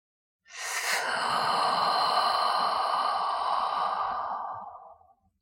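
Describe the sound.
A single long, audible exhale during a guided breathing exercise: a steady, breathy rush of air that starts abruptly, holds for several seconds and then tapers away, heard alone with no talking.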